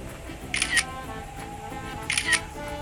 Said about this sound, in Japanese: ちょっとこの写真を撮って